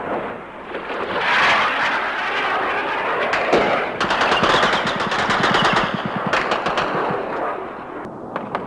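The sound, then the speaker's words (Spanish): Anti-aircraft batteries firing during an air attack on a bay in the Falklands War: loud, sustained bursts of rapid machine-gun fire, many sharp cracks overlapping, growing denser midway before easing. “Contestan nuestras baterías antiaéreas y se ve el refulgir de sus disparos en el aire. Un ruido que ahora se hace más intenso.”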